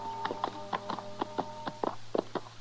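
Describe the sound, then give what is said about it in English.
Horses' hooves clip-clop as riders approach, many steady, evenly spaced hoofbeats with a faint sustained tone running beneath them. “Chester and I rode up to see if Andy was still on the ranch”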